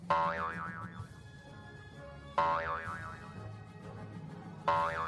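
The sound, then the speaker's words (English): Three cartoon boing sound effects, meant to suggest hopping bedbugs, each a bright springy twang with a wobbling, vibrato-like pitch that rings and fades before the next one lands. “Do we maybe have a sound effect of, like, boinging or something evocative of the hopping about it can be readily imagined that bedbugs do?”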